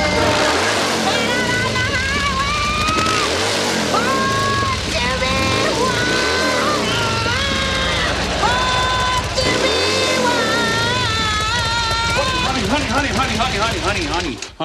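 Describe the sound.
A motorcycle engine runs loud and steady throughout, revved over and over so its droning pitch swells and sinks in repeated waves.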